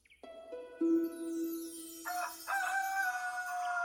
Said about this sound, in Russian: Утром меня разбудил петушиный крик, звонкий и задорный.